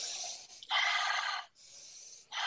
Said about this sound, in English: we're going to be inhaling through the mouth, exhaling through the, inhaling through the nose, exhaling through the mouth.